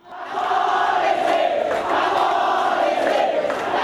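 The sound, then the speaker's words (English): Roar of protesters in the streets of Indonesia after the official vote count: a dense, sustained mass of shouting voices swells in quickly and stays loud and unbroken to the end. “And that is the sound of protesters who took to the streets in Indonesia after an official vote count showed that the current Indonesian president, Joko Widodo, comfortably won re-election.”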